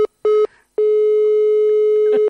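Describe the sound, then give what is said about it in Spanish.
Telephone ringback tone as a call is placed to a university communication department: a steady, low electronic tone sounds as two short beeps, then one long sustained tone. “Si me disculpa, llame a ese teléfono, ¿de acuerdo?”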